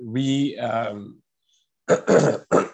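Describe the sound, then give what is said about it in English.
Three short, harsh coughs from a person during a spoken talk, bursting out in quick succession after a voiced, throaty sound and a brief silence. “apologize for the coughing here”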